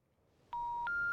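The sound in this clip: Two touch-tone keypad beeps sound as a phone number is dialed on a mobile. Each is a clean, steady electronic tone, the second pitched higher than the first, quiet and without voices.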